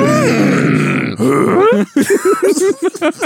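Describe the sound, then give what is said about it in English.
A baby groans and grunts: a long strained, voiced groan, then a string of short, choppy grunts in quick succession, loud and close. “what do you think of my baby? Was that a groan of satisfaction?”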